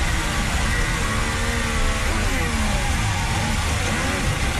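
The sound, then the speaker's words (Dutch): Onboard engine sound of a Formula 1 car during a race, a loud, continuous high-revving roar whose harmonic pitch wavers up and down as the revs shift, heard alone without talk. “Onboordgeluid van Gabriel Bortoletto.”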